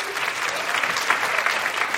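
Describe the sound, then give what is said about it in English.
Audience applause from a crowd being surveyed about online dating, a dense, steady wash of clapping that holds at an even level for about two seconds without breaks or voices. “People here who've been online dating, can you applaud women, especially if you've been dating online?”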